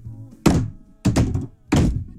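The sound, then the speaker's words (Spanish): Three heavy knocks on the door of a house, evenly spaced, each a loud, low, booming thud with a short ring-off after it. “Y llegué a la puerta de su casa y le he tocado tres veces como un varón.”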